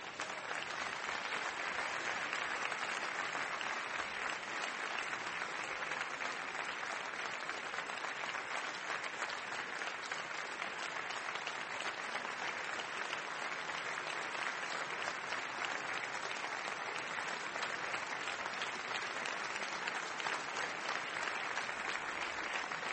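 An audience at a live debate applauds as the debaters come to the stage. The clapping stays dense and even for its whole length, without talk.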